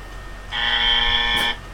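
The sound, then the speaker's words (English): A game-show style buzzer sound effect blares once, a steady, harsh, harmonic buzz lasting about a second over a faint background hiss. “I'm going to have to give myself the buzzer.”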